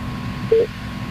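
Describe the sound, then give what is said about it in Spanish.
A telephone number is dialed, heard as a single brief, steady keypad tone over a low background hum. “Marcando en este momento, marcando.”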